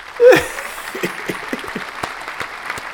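Short canned applause sound effect: one brief, loud burst at the start, then scattered, fairly faint claps that trail off over a few seconds.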